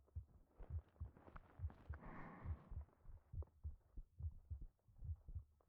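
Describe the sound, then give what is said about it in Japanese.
A human heartbeat, calm and steady: many soft, low thumps in an even rhythm, with a brief faint hiss partway through. “ただ私の心臓の音だけを聞いていて”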